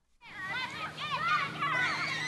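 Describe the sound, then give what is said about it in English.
Children playing in a riverside park in San Antonio, Texas, on a 100-degree day with families picnicking, their high voices chattering and calling continuously, fairly quiet, over a low steady hum. “It's 100 degrees outside, but hey, this is Texas, and there are kids playing and families picnicking.”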